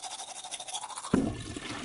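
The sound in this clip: Teeth being brushed with a toothbrush as part of a morning routine before work: a faint, continuous scratchy rasp of bristles, with a slightly louder, lower scrubbing burst partway through.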